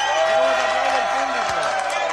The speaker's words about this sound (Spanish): Sí, señora, mira qué ovación, ¿eh?